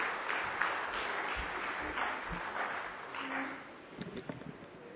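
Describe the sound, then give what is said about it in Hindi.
Applause from an audience welcoming a speaker at a Brahma Kumaris gathering, soft and steady clapping that stays faint and continuous for several seconds. “आपने उस कार्यक्रम को भी बहुत सफलता से संचालित किया, तो जोरदार तालियों के साथ बीके दीपा बहन का स्वागत करते हैं।”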